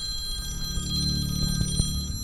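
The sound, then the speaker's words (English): A telephone rings at a UN peacekeeping mission headquarters during a period of rocket fire and explosions, giving a steady, sustained high ringing tone over a low rumble, with a couple of brief thuds near the end. “The phone of UNIFIL's head of mission and force commander, Major General Stefano Del Call, was ringing.”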